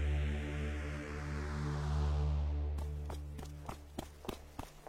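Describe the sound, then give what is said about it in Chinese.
Footsteps of someone running down a staircase past staring onlookers: a rapid series of sharp, hard steps enters partway through over a sustained low droning tone that fills the whole stretch. “在周遭人诧异的注视中，池小池一路冲下楼梯”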